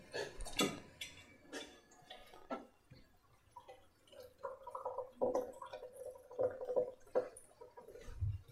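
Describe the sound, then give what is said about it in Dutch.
Tea being poured into a cup, with a few light knocks and clicks first, then a steady, trickling stream of liquid with a fairly even tone, broken by brief pauses before it stops. “Dan schenk ik nog een theetje in.”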